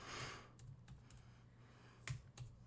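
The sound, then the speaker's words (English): Typing on a computer keyboard produces a few sparse, soft key clicks at an irregular pace, with one slightly sharper tap near the end, all fairly quiet. “So right now what you're hearing is the sound of typing as we pull up the cast.”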